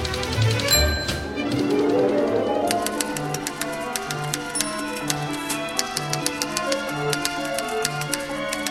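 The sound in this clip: Typewriter keys rattle as a solo instrument alongside an orchestra: many rapid, regular clicks and clacks ride over sustained orchestral tones, in a crisp, rhythmic pattern throughout.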